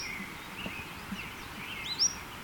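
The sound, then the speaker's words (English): Faint bird call of two kinds of high notes: soft thin whistles followed by a sharper, louder high note near the end, over quiet background hiss. “both notes are by this bird”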